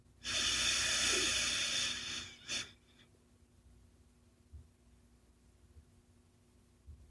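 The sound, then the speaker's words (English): A person breathes in and out: one long, loud, hissing exhale lasting nearly two seconds, then a short sharp puff, then faint, quiet breaths. “Breathe out. One more time. Let's breathe in.”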